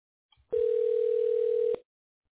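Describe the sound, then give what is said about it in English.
A telephone line rings while a business call is being connected: after a faint click, one steady mid-pitched ringback tone sounds for a little over a second, then stops. “Please hold while we connect your call.”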